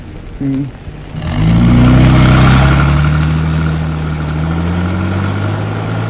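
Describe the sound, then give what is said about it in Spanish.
A car engine revs up and accelerates after a brief low idle, its deep droning note rising and holding loud and steady as the vehicle pulls away onto an asphalt road. “Greta Gary respira, tranquilizándose al tiempo que el árabe hunde el acelerador, proyectando el vehículo en la cinta asfáltica”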